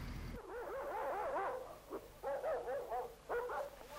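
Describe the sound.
Several dogs, among them a shepherd-husky mix, whimpering and yelping in high, wavering whines that come in repeated short bursts, fairly loud over steady background noise, with no talk.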